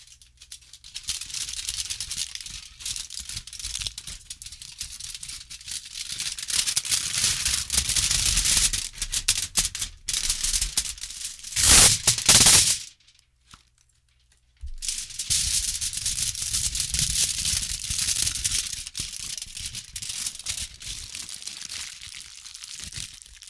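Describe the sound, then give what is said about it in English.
Tin foil is crinkled and handled, producing loud, continuous rustling and crackling for long stretches, with a brief silent pause partway through before the crumpling resumes. “I'm gonna be messing around with some tin foil.”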